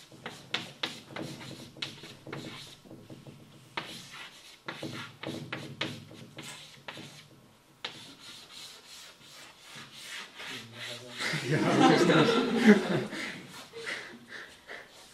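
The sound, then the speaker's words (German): Chalk writing on a blackboard: dry scratching strokes and light taps in an irregular rhythm, quiet and intermittent, with a longer, louder scrubbing stretch near the end. “Zum Glück haben wir ja eine Tafel und Kreide.”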